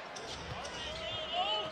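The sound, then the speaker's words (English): A basketball is dribbled on an NBA court during a Raptors game, making dull, low thuds under steady crowd noise. “Harden on the bounce.”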